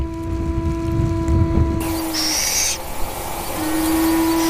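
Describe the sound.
Owlets of a resident high-plateau owl call from their sheltered nest, giving long, steady, low tonal calls, one drawn out and a second after a pause, over a background hiss.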